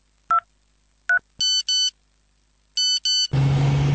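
A mobile phone ringing with electronic tones: two short chirps, then two pairs of longer, bright, multi-tone beeps. A steady, engine-like rumble takes over at the end.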